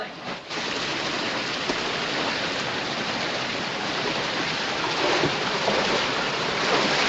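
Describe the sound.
Water rushes steadily into a leaking ship's compartment, a dense unbroken roar of pouring and splashing that holds at an even level through the whole stretch, with a brief dip near the start.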